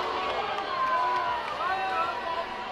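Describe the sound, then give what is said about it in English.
Baseball crowd reacting with displeasure to a fastball called strike two on the inside corner. A dense, steady roar of many voices fills the whole stretch, with a few drawn-out shouts standing out above the murmur. “Fastball called strike two on the inside corner. Crowd did not like that one.”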